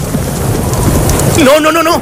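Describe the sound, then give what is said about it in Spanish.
Heavy rain pours during a night thunderstorm, a loud, continuous wash of noise with low rumbling underneath that holds steady for about two seconds. “Enseguida cayó la noche y con ella la tormenta. Tranquila, tranquila, chica. Solo es una tormenta.”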